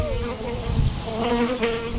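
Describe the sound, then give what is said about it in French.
A large fly with an elongated body, about a centimetre long, buzzes continuously around someone, a steady droning hum with a wavering pitch throughout. “Qu'est-ce qui nous tourne autour comme ça? Oh non, c'est un temps. On dirait une grande mouche avec un corps allongé.”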